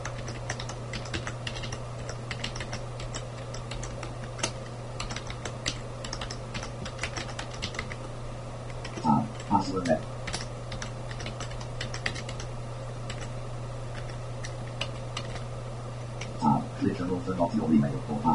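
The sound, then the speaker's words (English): Rapid typing on a computer keyboard as sign-in details are entered: many light, clicky keystrokes over a low, constant hum, with brief bursts of speech near the middle and the end. “Type words off, and I'm going to type in my details.”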